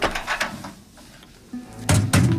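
Heavy clunks come from a safe being unlocked with a birthday passcode and its door swung open. A quiet stretch is followed by a couple of loud, blunt thunks near the end.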